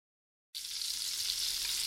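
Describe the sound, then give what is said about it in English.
Bacon frying in a pan: after half a second of silence, a bright, steady hissing sizzle starts abruptly and holds at an even level to the end. “I hear it, friend. You must be cooking up the bacon you got in your latest Moink box.”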